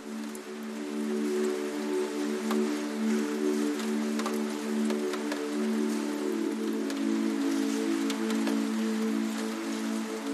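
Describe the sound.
Rain falls steadily on a surface, a soft continuous patter with scattered brighter drips and clicks, accompanied by a sustained low, calm tonal hum underneath.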